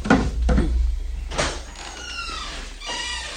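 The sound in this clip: A door being opened in a dramatised scene: a few dull knocks and clunks are followed by thin, squeaky creaking tones and a last scrape, all fairly quiet.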